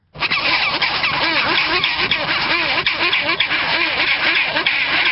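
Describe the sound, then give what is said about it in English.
Chinstrap penguins squabble loudly over nest sites in a dense, continuous chorus of harsh, overlapping braying calls that never let up. “That's a flavor of their fierce squabbling over nest sites, which are quite loud.”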